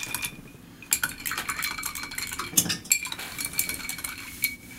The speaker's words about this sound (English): This could be a brunch cocktail. Easily. Give it a stir